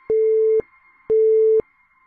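A telephone busy tone after the caller hangs up: two steady, mid-pitched beeps, each about half a second long, separated by a short silence, with no other sound.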